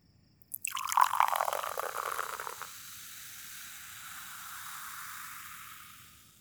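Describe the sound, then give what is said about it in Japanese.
Liquid pours close to the right ear in a steady stream that begins after a brief pause and is loudest early on. It then settles into a softer, continuous trickle that slowly fades away. “それじゃあ、まずは右耳の近くで注ぐね。”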